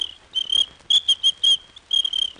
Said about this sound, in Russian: У мене для неї був дамський свисточок.